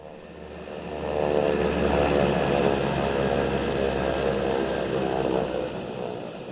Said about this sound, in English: Wheels down, Mia Farrow has arrived in Dadaab.